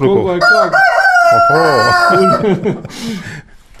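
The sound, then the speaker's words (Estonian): A rooster crows among hens on a farm, giving a loud, harmonic crow that lasts a few seconds, followed by shorter, quieter calls. “kas see kukelaul neid kanu ka siin kuidagi erutab?”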